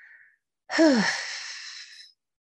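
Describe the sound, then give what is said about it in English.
One deep exhale during a breathing exercise starts with a brief voiced tone that falls in pitch, then trails into a long, airy breath out that fades after about a second and a half. “And as you exhale, breathe out all your negative worries and emotions. Just breathe it out like so.”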